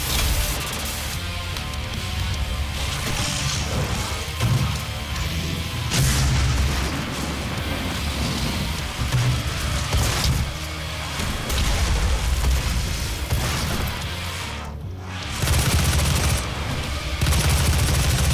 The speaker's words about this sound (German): Ich habe doch schon so viel auf dich geschossen.